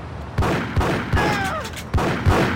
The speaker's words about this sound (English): I shot three times and got out the way.